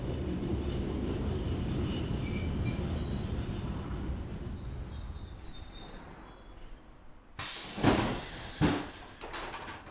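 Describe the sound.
A train rumbles and squeals on its wheels as it pulls into a station, a steady low roar that fades before a couple of loud clunks near the end.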